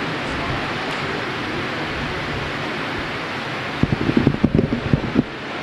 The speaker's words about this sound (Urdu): اگر آپ مناسب سمجھے تو چند پنکھے بند نہ کر لیں